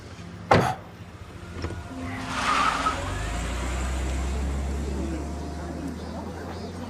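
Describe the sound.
A car drives away: a brief sharp knock comes first, then a low engine rumble builds and holds steady, with faint voices near the start.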